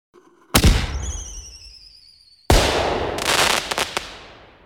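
Fireworks sound effect: a sharp bang with a thin high whistle trailing after it, then a second loud bang followed by a dense burst of crackling pops that gradually fades.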